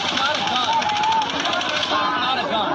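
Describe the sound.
Rapid automatic gunfire at a crowded outdoor concert on the Las Vegas Strip: a dense, continuous stream of fast pops blended with crowd noise and voices.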